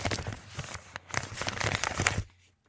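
An envelope is torn open, with crisp paper crinkling and ripping in many quick, uneven bursts of rustling that stop abruptly near the end.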